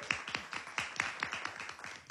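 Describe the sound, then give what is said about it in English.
Clapping at a stage event where the audience is asked to thank the experts who contributed. A small number of hands beat out many separate, evenly spaced claps in a steady rhythm rather than a dense roar. “Can we also just give them a round of applause as well?”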